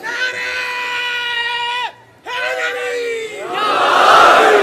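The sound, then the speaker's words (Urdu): A large crowd chants religious slogans at a packed religious gathering. Many voices hold a long unison shout, break off briefly, start a second shout, then swell into a loud, rough roar. “اصل میں مجمع اتنا ہے کہ مجھے آخری والوں کے نعرے کی آواز نہیں آتی”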